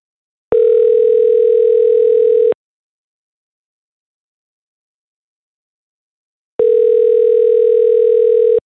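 A telephone signal heard while placing a call: a steady, loud electronic tone sounds for about two seconds, falls silent for about four seconds, then repeats once.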